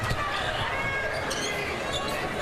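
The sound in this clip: A basketball is dribbled into the front court during a women's game, its bounces partly buried under a commentator's voice and dense steady background noise.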